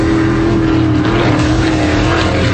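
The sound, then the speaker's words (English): Offshore race boats speed at over 140 miles an hour with a loud, continuous engine roar, a steady droning tone and broad rushing noise held at an even level without breaks. “90 race boats, over 140 miles an hour.”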